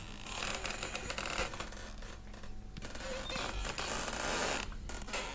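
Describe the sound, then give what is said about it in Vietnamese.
Harsh creaking and grating as a crowbar prises tightly driven nails from a wooden coffin lid in a graveyard, a continuous rasping squeal with irregular louder bursts. “dùng xà cày bảy từng chiếc đinh được đóng chặt tấm ván thiên. Những tiếng ken két vang lên ở trong bãi tha ma lạnh lẽo”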